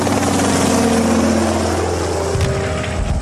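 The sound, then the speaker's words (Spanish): Helicopter engine noise from a large, heavy 1940s–50s piston engine: a loud, continuous droning roar with a deep steady hum underneath, shifting slightly in tone near the end. “Este es el típico motor de pistón de los años 40 y 50. Grande, aparatoso, pesado, todo lo necesario para que no fuera bueno.”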